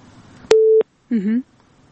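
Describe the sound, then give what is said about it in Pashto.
A single steady electronic beep sounds on a phone line after the call connection drops, lasting about a third of a second, followed by a short voiced burst. “ښه لکه چې دوی اړیکه پرې شوه”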